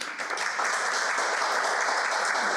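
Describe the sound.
Audience applause welcoming three speakers at a talk on architecture, public buildings and art: a steady, dense wash of clapping that stays even and loud throughout.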